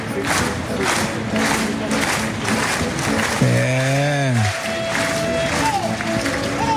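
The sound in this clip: A bullring crowd at Dax roars in support of the matador during a corrida with El Pilar bulls, with a steady wash of cheering, a loud sustained shout partway through, and a man talking over the noise.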